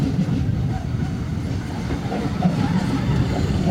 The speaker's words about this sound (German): wo ich hier gerade den, den 412 neben uns einfahren sehe